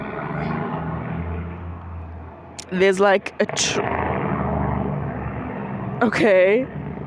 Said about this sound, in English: there's like a truck that some dude drives, and I'm so sorry you had to hear that